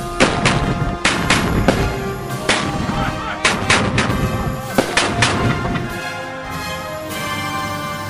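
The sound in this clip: A firing squad looses gunfire on command: many loud, sharp shots crack out in a quick, irregular series, each hard-edged with a short ringing tail, thinning out toward the end.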